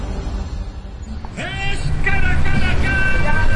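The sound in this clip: Rumbling engine of a taxi setting off along a narrow, busy street lined with parked cars and motorbikes in Medellín's Popular 2 neighborhood, growing louder partway through, with a voice talking over it.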